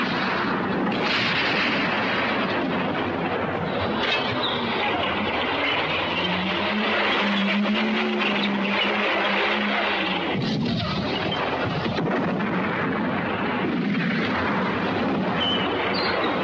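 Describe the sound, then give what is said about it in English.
Artillery fire rolls through a desert tank battle between German panzers and Allied tanks, a dense, unbroken roar of blasts and rumbling with a droning engine tone emerging midway before sinking back into the din. “The battle in the desert rages on between the German panzers and the Allied army tanks.”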